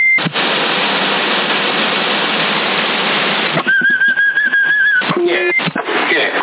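Someone whistles over a CB radio on the 27 MHz band. About three and a half seconds of steady static hiss give way to a warbling whistle lasting roughly a second, followed by choppy noise bursts through the narrow radio sound.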